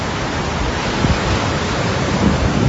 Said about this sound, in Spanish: Este es el sonido de la riada de agua dulce que se producía ayer y que podemos ver en la Voz de Galicia.